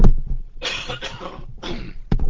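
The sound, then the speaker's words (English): A few rough, loud coughs and throat-clearing bursts come in quick, uneven succession from someone pausing mid-commentary. Each burst is brief and harsh. “I'm going to just have a little cough here.”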